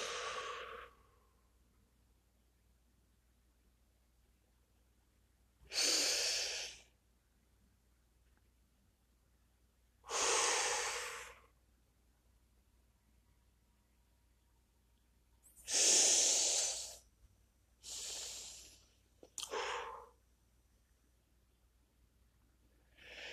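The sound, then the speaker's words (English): Slow, deep breathing in and out, with several long, airy breaths separated by stretches of near silence and no talk. “Take another three deep breaths. Exhale.”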